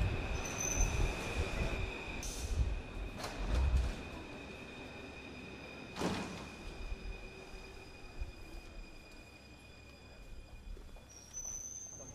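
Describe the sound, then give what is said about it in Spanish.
A Paris metro train in motion: a low, rumbling ride with a high steady whine, several sharp wheel squeals and clunks early on, then a quieter steady run. “Bueno, pues vámonos, vamos al metro.”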